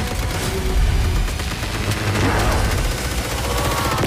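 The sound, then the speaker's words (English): Video game gunfire from a newly acquired weapon: dense, continuous bursts of rapid shots with sharp cracks and booming low end, loud and unbroken throughout. “Oh, new gun. That's a new gun.”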